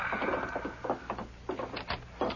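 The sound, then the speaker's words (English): A wooden door opens with a few faint clunks, knocks and rattling scrapes in an uneven sequence, fairly quiet throughout. “Open the door”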